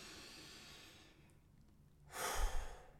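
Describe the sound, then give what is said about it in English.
A deep breath: after a quiet, hissy stretch comes a single full rush of air, broad and breathy, swelling and then easing off, with no talk. “Take a deep breath.”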